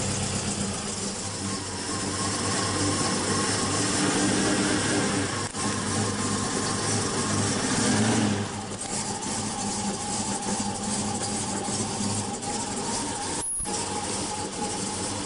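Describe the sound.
A car engine idles with a loud, steady rumble that stays fairly even throughout, with one brief sharp click near the end.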